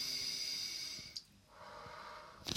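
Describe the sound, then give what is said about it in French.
Deep breathing: a long, airy breath, a brief pause, then another steady breath, fairly loud and heard alone with no talk. “il faut que je respire pour mieux me sentir”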